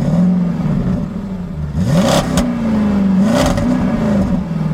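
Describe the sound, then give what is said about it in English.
A car engine revs, its steady throaty drone rising in pitch a couple of times and then settling back, with no voices present. “Fords and Chevys, Peugeots and Hondas, Toyotas and Audis, the rise of the almighty automobile.”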